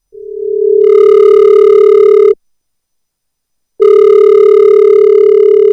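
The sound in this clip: Telephone ringing tone, heard as two long, steady, loud electronic tones separated by a silent gap of over a second, with no voices.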